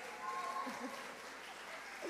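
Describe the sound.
Applause from an audience at a worship night, a steady, fairly quiet wash of clapping that holds evenly for about two seconds.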